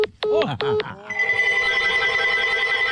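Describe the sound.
A telephone rings in two short, bright bursts, followed by steady sustained tones.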